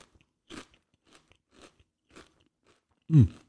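A crunchy spicy snack is bitten and chewed in a few sharp, dry crunches spaced irregularly, with quiet pauses between them. A louder, fuller crunch comes near the end.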